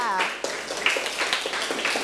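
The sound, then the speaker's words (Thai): Schoolchildren in a classroom clapping for a classmate after a group answer, a scattered, irregular patter of claps following a brief adult voice at the start. “ว้าวเยี่ยมมากๆเลยค่ะปรบมือให้เพื่อนค่ะ”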